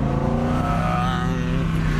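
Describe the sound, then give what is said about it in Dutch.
Steady engine drone from an Audi R8 V10 sports car, a loud, even roar with strong layered harmonics that holds its pitch and level throughout, with no voices. “De rijimpressie. Wouter test de Audi R8 V10.”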